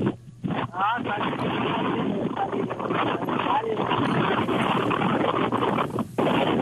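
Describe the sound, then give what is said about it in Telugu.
Strong wind noise roars across a caller's phone line, a harsh, steady rushing that largely buries the caller's voice as they talk from out in a field. “బాగా సప్పుడు వస్తున్నది. గాలి బాగా వస్తున్నది.”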